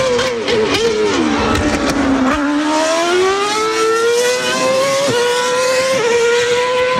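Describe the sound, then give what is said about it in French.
Formula One race cars at a Grand Prix, heard on a television broadcast: a loud, high engine whine sinks in pitch, then climbs steadily as the car accelerates, broken by a couple of quick dips like gear changes. “Et la chaîne qui fait du bruit à ce sujet, c'est Canal+. Si vous avez un voisin qui regarde les Grands Prix de Formule 1 sur Canal+, il est possible qu'il monte un petit peu trop le son.”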